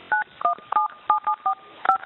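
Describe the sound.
Telephone keypad tones dialing a number on an automated collect-call line: eight short, clipped dual-tone beeps in an uneven rhythm, each bright and narrow-band, with brief gaps of line hiss between them.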